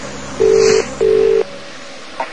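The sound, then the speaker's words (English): Telephone keypad tones as someone dials security: two clear, steady electronic beeps of equal pitch, each lasting under half a second with a short gap between, followed by a faint click. “Now it's covered in the sleeve, and I'm going to phone security.”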